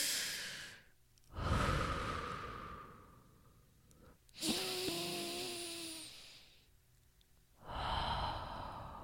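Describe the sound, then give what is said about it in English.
Slow, deep human breaths drawn in through the nose and let out through the mouth. A few long, airy, breathy swells rise and fade, each separated by a short quiet pause, with no talking. “Take three big deep breaths to really come into your body. I'm going to do them too.”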